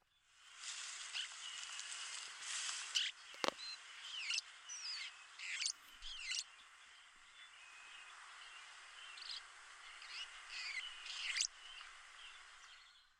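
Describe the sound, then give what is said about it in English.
A northern rough-winged swallow sings many short, rough, buzzy high chirps in irregular bursts, faint over a steady hissy background. “Here's the song of the northern rough-wing swallow.”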